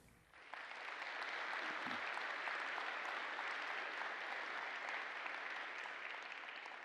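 An audience at First Methodist Mansfield applauds in welcome, a faint but dense, even roar of clapping that swells up quickly and holds steady for several seconds.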